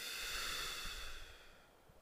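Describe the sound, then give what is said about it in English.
A slow, deep breath in a guided breathing exercise, a soft airy hiss that is faint throughout and fades away toward the end. “just to breathe in. And breathe out.”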